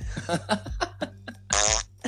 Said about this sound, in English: What if we played tennis with farts?